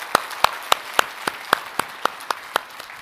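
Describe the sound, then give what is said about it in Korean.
Congregation clapping in unison during a church worship service, about eleven sharp evenly spaced claps in a steady rhythm over a low background murmur. “위대하신 하나님의 이름을 우리 다시 한번 박수로서 높여드리겠습니다.”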